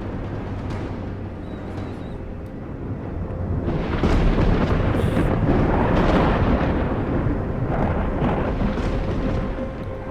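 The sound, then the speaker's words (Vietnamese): A loud thunder crash from a lightning strike: a broad, rumbling roar that swells partway through and stays heavy and sustained to the end, with no voices. “Nó và tia sét đầu tiên giáng xuống, đập mạnh vào nhau, nổ đùng đùng lên đinh tai nhức óc.”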